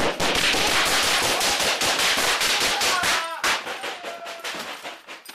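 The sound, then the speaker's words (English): Gunfire as officers shoot back at a gunman inside an apartment complex: a loud, dense burst of many rapid shots that thins into scattered cracks and a ringing, fading tail. “The officers shot back.”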